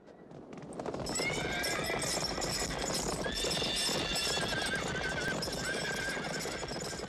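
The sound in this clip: A herd of horses gallops with dense, continuous clip-clopping hooves, building from a quieter first second to a loud steady rush while several horses neigh high above the hoofbeats.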